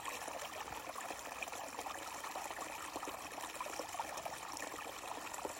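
Water trickling into a full pond, a steady, continuous bright babble and splash with no pauses and no voices.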